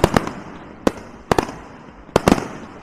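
Fireworks on New Year's Eve: many sharp, loud bangs and crackling firecracker pops in irregular bursts, some in quick pairs, separated by brief quieter gaps.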